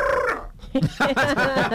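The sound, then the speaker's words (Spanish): A family pet parrot talks in a raspy, squawky voice, giving a few short bursts of chatter with a brief pause between them. “Sí, loro. Loro habla bien.”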